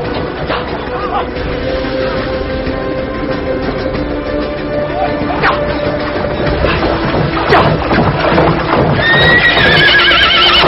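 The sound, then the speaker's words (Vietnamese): Horse hooves clip-clop at a gallop across a bridge in a historical war battle scene, with a steady fast beat of hoofbeats throughout and a high whinny near the end. “phi ngựa về phía sau đi, sau đó phi ngựa chạy thẳng qua cầu.”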